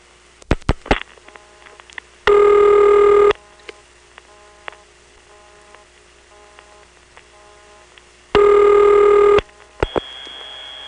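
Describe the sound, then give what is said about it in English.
Telephone keypad tones dialed into a telephone line: two sustained multi-tone bursts of about a second each, with sharp clicks before the first, faint hum between them, and a thin steady high tone at the end. “Let's try dialing something like 2.”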